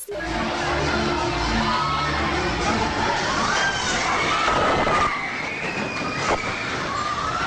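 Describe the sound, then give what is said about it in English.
Screams and shouts rise from a crowd in a Santiago, Chile nightclub as an earthquake strikes. A low rumble fills the first couple of seconds, while loud, sustained crowd voices continue throughout. “This is the sound of amateur video taken in a nightclub in Santiago, Chile, when the earthquake struck last weekend.”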